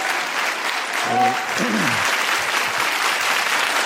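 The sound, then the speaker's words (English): Studio audience applause on a talk show, a big burst of dense, even clapping throughout, with a voice briefly rising over it. “There it is. Gets the big audience pop.”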